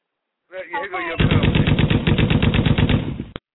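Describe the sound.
An automatic gunfire sound effect: a loud rapid burst of evenly spaced shots lasting about two seconds, preceded by a brief voice.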